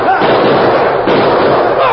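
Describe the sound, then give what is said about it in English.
Gunfire in a shootout rattles in a loud, dense barrage, the shots blurring together without pause for about two seconds. “Shoot them! Fight for it! Come on, a fight! Give it to them!”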